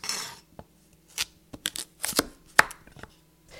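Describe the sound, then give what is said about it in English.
A knife chops carrots into sticks with crisp, irregular strikes, some close together and others after short pauses. “So for carrots, it can be really great to cut them into carrot stick type pieces.”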